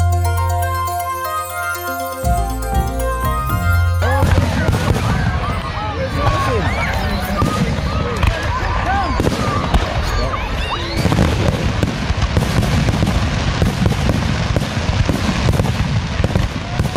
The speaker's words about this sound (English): That's the sound of New Year's Eve fireworks and a very appreciative crowd last Saturday night at Limestone Park.